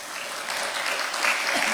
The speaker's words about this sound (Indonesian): Sebelumnya saya ingin sekali lagi tepuk tangannya dong untuk audiensnya.